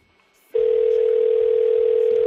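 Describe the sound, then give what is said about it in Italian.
A steady telephone ringing tone from a call to a number abroad starts after a short quiet moment and then holds at an even, unbroken pitch to the end. “Squilla estero qui.”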